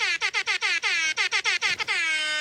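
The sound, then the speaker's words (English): A party air horn blares in many short, loud, stuttering blasts, then settles into one long, sustained honk. Its tone is bright and brassy. “It's when you get behind your friends and scare them with that party air horn sound.”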